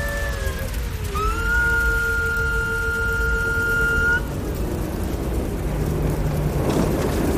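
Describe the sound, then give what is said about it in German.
Mechanical whine of a fire truck's ladder extending, a steady tonal hum that steps up in pitch early, holds, then cuts off partway through, leaving a softer rushing noise. “Okay, ich fahre die Leiter jetzt aus.”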